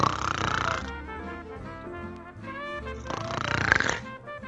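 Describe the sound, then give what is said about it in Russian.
A man snores while lying in tall weeds, with two long, loud rasping breaths separated by a quieter stretch. “Он улегся в бурьяне и вскоре захрапел.”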